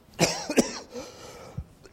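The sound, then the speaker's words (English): A cough, two quick harsh bursts close together with the second slightly stronger, then a fainter rough sound trailing off. “excuse me, sound man, be quick on the slider there. When you see me winding up for a cough, that's when you got to turn me off.”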